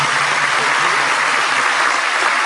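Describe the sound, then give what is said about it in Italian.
An audience applauds at an award tribute, dense and fairly loud clapping that stays steady from start to finish. “ecco, fate l'applauso”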